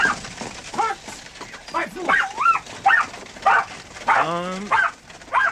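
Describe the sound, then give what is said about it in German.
A dog lets out a run of short, high yips and whimpering barks, repeated many times in quick, uneven bursts with wavering pitch. “Braver Hund.”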